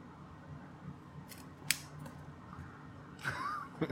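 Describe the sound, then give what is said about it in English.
Knife cutting and scraping to clean out ash: a faint, scratchy texture with one sharp snip near the middle and a short burst of scraping toward the end. “So I pulled out my knife, and I'm sitting here cleaning out all the ash. I'm watching this. I literally could just do this. Watch. Cut it.”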